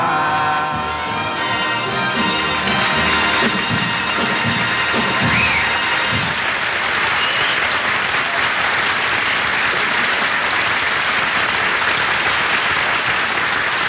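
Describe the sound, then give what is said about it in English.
Studio audience applause right after a sung cigarette commercial jingle on a radio comedy program, a dense, steady wash of clapping that stays loud and even for the whole stretch, with no voices over it. “I could even hear the applause.”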